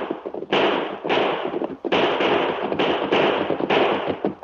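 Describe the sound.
Gunshots fire in a Lone Ranger radio western drama as outlaws pursue riders: a rapid series of loud, harsh blasts, each trailing into a sustained rushing roar that runs almost unbroken throughout.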